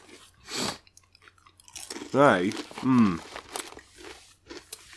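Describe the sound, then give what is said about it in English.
Crisps crunch loudly as someone chews, with several sharp crackling bites and muffled voiced murmurs between them. The crisps are strong-flavoured Seabrook crisps. “These are one of the best crisps that I've tasted.”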